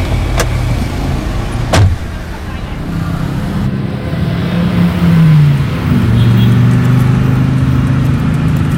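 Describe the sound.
A car: a continuous engine hum with two sharp clicks early on, then a low engine tone that rises and shifts in pitch through the second half, fairly loud and steady.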